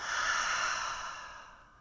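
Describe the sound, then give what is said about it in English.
A deep breath out through a wide-open mouth: one long, breathy rush of air that starts strong and gradually fades toward the end, with no talking. “Open the mouth fully, exhale. Again, big breath in. Biggest breath out.”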